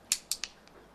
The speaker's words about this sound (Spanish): Carga el percutor.